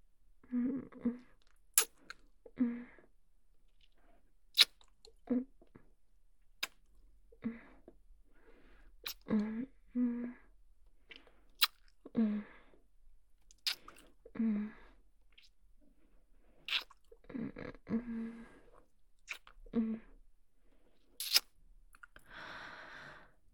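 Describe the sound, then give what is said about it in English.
Deep, sensual kissing on the lips: many quiet, wet lip smacks and sharp mouth clicks at irregular intervals, with soft breathy mouth sounds between them. “A deep, sensual kiss on those lovely, lovely lips.”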